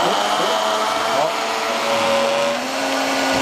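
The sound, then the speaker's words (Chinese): A kitchen blender runs at speed, juicing coriander, celery, onion, garlic and other vegetables. It makes a loud, steady motor roar with a faint whine that barely changes pitch from start to finish. “这么多种蔬菜啊，打出来这个汁肯定味道很复合，这个 对 香味是吧？正好填满。 正好啊， 一点缝隙都没留。开机。”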